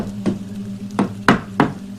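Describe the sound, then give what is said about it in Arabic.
Knocking on a door in the middle of the night in a horror story: four sharp knocks with uneven spacing, the last three coming closer together, over a steady low hum. “في انصاص الليالي اتفاجئت ام رؤوف بالباب بيخبط”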